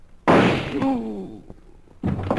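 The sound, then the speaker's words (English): Gunshots ring out as two sharp, loud bangs, the first trailing into a longer decay and the second cutting in near the end, with a short voice-like cry between them. “Holy mackerel, where'd that shot come from?”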